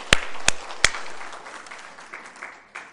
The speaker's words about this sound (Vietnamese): ta vỗ tay ngợi khen Chúa đi.